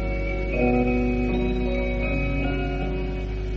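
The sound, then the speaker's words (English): An old German music box playing, with sustained chiming notes in a gentle melody over a steady low hum. “So, back to the Christmas Archives for the sound of an old German music box and a last word from our Christmas nuts.”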